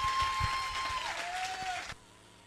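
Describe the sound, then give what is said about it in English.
An audience applauds to welcome a speaker with a dense, steady wash of clapping that stops abruptly near the end. A faint sustained tone runs beneath it. “Come on, put your hands together as we welcome up Michael Ferris.”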